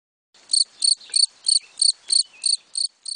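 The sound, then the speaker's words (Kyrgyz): Grasshopper chirping alone: nine short, high, buzzy chirps repeat at an even, steady rhythm, each of similar loudness. “Чегиртке. Чегиртке, чегиртке, секирип кетет элликче, ырдай берет чырылдап”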